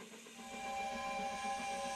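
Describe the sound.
Sustained whistle of a steam train with hissing steam, swelling in over the first half second and then holding a steady, bright, layered tone without voices.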